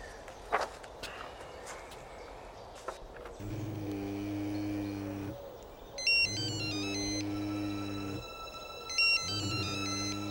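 A mobile phone rings: three repeated bursts of a low buzzing tone, joined partway by a bright, melodic electronic ringtone. A few footsteps and scuffing noises come before the ringing starts.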